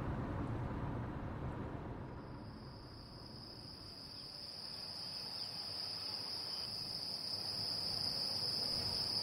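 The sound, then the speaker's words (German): Crickets and other insects chirr at night in rural Soria, a sparsely populated province of central Spain. A steady, thin, high buzz holds over a faint, low background hush. “So klingt die Stille in Soria, einer Provinz in Zentralspanien, nördlich von Madrid.”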